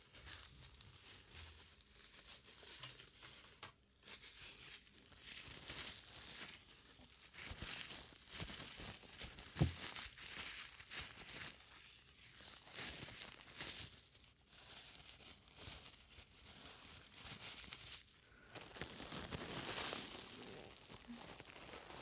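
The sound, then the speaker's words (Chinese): Soft rustling and rubbing of cloth as unabsorbed massage oil is wiped off a man's skin, quiet uneven strokes with crinkly friction and short pauses between. “现在帮先生擦掉没有被吸收的按摩油。”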